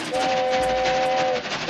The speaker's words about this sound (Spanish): hemos vivido la experiencia, pues, de la puesta en marcha del funcionamiento, pues, del nuevo ferrocarril.